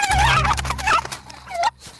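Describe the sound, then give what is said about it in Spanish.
A hen and a rooster call on a countryside farm, loud wavering nasal calls in a few bursts with short gaps between them. “¿esto qué es? Una gallina. Este es un gallo.”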